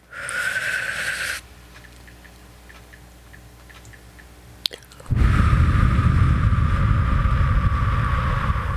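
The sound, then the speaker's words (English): Breathing into a microphone during a paced breathing exercise: a breathy inhale of just over a second, a quiet pause with faint ticking and a small click, then a long, loud, rough exhale lasting nearly four seconds. “Nobody likes dead air on the radio, so I'm going to breathe into the microphone.”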